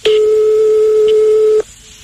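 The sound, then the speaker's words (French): A telephone tone sounds as a call is placed to someone's home: one steady, loud, high tone held for about one and a half seconds, then abruptly cut off, leaving faint quiet. “Donc, on va appeler chez lui. Je sais pas, on va sûrement tomber sur un répondeur”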